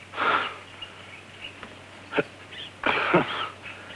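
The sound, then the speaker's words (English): Deep, wheezing breaths from a stricken man: a few rasping, hissy gasps, the last one longest, over a steady low hum. “They watch intently as a stricken man takes a few deep breaths.”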